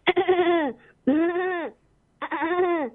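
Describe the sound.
A human voice imitates a goat bleating in a mimicry act. It makes three wavering, nasal bleats, each trailing off in pitch, with short pauses between them.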